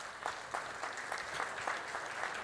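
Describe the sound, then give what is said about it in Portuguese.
Applause for honorees at a ceremony: a dense, steady wash of many hands clapping that keeps an even level throughout, with no voices above it. “Então, eu queria pedir uma salva de palmas para todos os nossos homenageados, nosso muito obrigado.”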